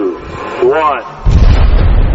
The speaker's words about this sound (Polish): Większość z nich może tylko marzyć o odejściu z hukiem, tak jak jeden z kominów wysadzony przed 3 laty.